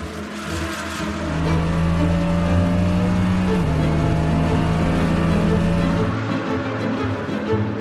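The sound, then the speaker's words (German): Racing car engines at a race start, with a Ferrari forcing its way past a Mercedes: a loud, sustained droning roar whose tone shifts midway, staying dense and unbroken to the end. “Doch noch vor der ersten Runde presste Lawson seinen Ferrari mit einem sehenswerten Manöver am Mercedes von Ellis vorbei.”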